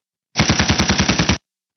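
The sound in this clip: A rapid burst of machine gun fire: a dense run of many evenly spaced, loud shots lasting about a second, with nothing else around it.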